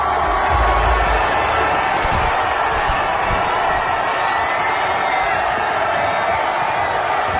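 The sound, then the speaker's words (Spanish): Loud, dense crowd roar of Arsenal football fans celebrating the Premier League title in London, a steady wash of cheering and shouting that holds at an even level throughout, with no single voice standing out. “Este es el sonido de la celebración del Arsenal hoy en Londres.”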